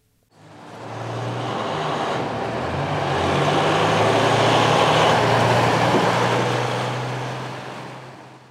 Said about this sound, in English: This is the sound of Tijuana's booming maquiladora industry. The daily thunder from thousands of cargo trucks shipping goods into the U.S. through the Otay Mesa border crossing.